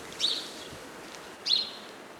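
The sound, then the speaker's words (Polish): A bird gives two short, high contact calls rather than continuous song. The thin chirps come about a second apart, faint against a quiet background. “Te dźwięki, które tutaj słyszymy, to bardziej takie kontaktowe. Nie jest to śpiew, bo no nie jest ciągły po prostu.”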